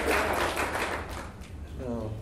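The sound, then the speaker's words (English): Audience clapping at a church service to welcome the preacher's family, a thick burst of many hands that thins out over the second half before a voice begins speaking. “And so give them a hand clap. I'm glad they're here.”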